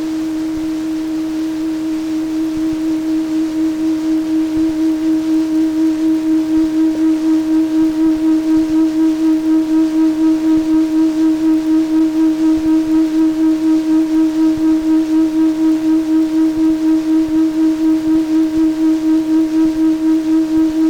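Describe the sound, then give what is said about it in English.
Binaural tones, a slightly different frequency sent to each ear, form one steady low hum that swells in over the first couple of seconds and then holds loud, pulsing with a regular, even wavering throughout. “So we remove the identical sound from one ear and instead use a slightly different sound, different in frequency or vibration. And listen now to the effect.”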